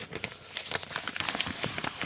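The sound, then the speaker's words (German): A paper Happy Meal fast-food bag being opened for an ASMR video: close, continuous crinkling and crackling with many small rustles. The level stays fairly even throughout, with no voices. “Wo irgendeine so eine Happy Meal-Tüte aufmacht. Und da geht es ja los, wie sie die Tüte aufpackt”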